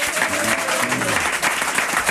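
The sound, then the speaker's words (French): Studio audience applause greets guests on a French television show, a steady, even wash of clapping that runs throughout. “Gilles Lelouch, Charles Berling, qui sont là, on peut les applaudir.”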